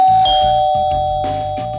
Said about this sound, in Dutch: Ik ga je even aanbellen bij huisje nummer 631.